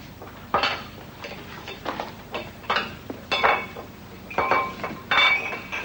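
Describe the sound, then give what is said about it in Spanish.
Dishes and cutlery clink as a breakfast table is set: a series of irregular clattering knocks and bright chinks at moderate loudness, with no voices. “Mientras, el niño va poniendo la mesa del desayuno.”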